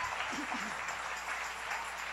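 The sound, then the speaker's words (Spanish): A church audience applauds after a sermon, giving a steady, even wash of clapping that stays faint and unbroken throughout, with no voices standing out. “Dale ese aplauso al Rey.”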